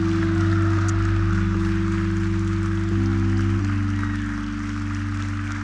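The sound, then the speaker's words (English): A church audience applauds its new members, a steady wash of clapping over sustained keyboard chords that shift a few times. “And yeah, let's give these guys a hand. We welcome them.”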